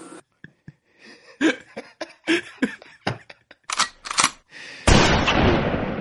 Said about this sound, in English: Fire two blasts outside the house. That was just one. Where's the backup? I need that second shot.